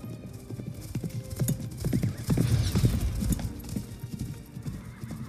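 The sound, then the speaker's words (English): Hoofbeats of several horses ridden off at night in a hurry: a dense, rapid clatter of many overlapping clip-clop strikes that grows louder through the middle and then eases slightly toward the end. “several men on horseback rode off into the night in a hurry.”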